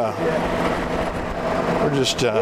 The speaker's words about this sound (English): In the golf cart here driving around.